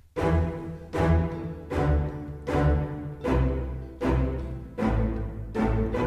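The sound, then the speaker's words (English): An orchestral string section of violins, cello and bass plays a stompy, evenly spaced pattern of short, heavy chords, about eight strokes, each swelling and fading before the next. “I'm just using violins, cello, and the bass strings for a sort of a stompy section underneath everything else. Sounds like this.”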